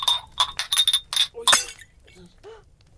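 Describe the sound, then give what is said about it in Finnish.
A sugar bowl is dropped and breaks: a run of several light, bright clinks, then a sharp crash, followed by a few faint, scattered ticks as the noise dies away. “Herrestavelta varjel, kun tuo nyt tipautti ja särki minun sokerirasiani.”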